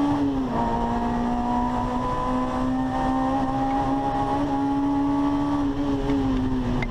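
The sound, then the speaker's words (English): A race car engine drones on a steady, fairly low pitch throughout, with a brief dip in pitch near the start while it downshifts with the clutch in, loud and without voices. “So he's downshifting. Downshifts. Still on the clutch.”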